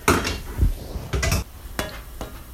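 Kitchen clatter as a strainer for pasta is pulled out: a few sharp metallic clanks and knocks of pots and utensils at uneven intervals, with quiet gaps between them.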